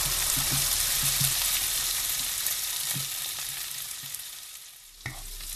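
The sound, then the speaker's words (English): Spices and onions fry in a pan with a steady, hissing sizzle that eases slightly over time. A single soft knock sounds near the end. “Our spices and our onions have been frying away for a good 15 minutes there”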